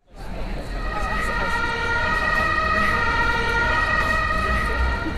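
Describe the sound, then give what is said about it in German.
Traffic on a multi-lane road beside a city garden in Berlin makes a continuous loud roar of passing vehicles, with a sustained, steady siren-like tone over it. “so klingt ein Garten in Berlin, wenn daneben eine mehrspurige Straße entlang führt.”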